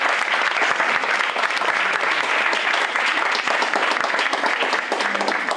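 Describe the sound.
Audience applause at a religious gathering welcoming a guest preacher, dense and steady clapping that holds at an even loudness for the whole stretch, with no voices standing out.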